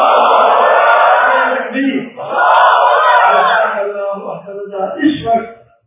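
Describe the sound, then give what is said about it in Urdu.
A crowd at a religious gathering shouts the takbir slogan in unison: two long, loud roaring chants, one after the other, that then break into scattered fading voices. “ایک نعرہ لگا دو نعرہ تکبیر”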